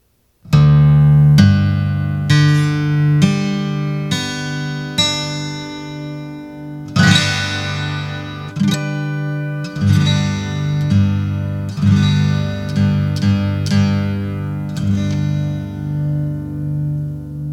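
Guitar strummed in open G tuning (D G D G B D): many ringing chords, the first ones struck about once a second, then a long sustained chord and quicker strums, each letting its notes ring out.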